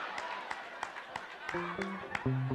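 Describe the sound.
Hands clap in a steady, brisk rhythm at a live comedy show, crisp claps repeating about every third of a second, with a voice talking over the later part.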